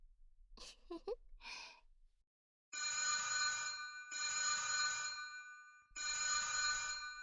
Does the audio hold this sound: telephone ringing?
yes

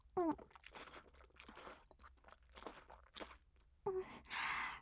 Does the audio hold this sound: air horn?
no

